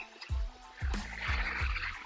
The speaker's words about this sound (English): Sorry about that, that's my garage going up.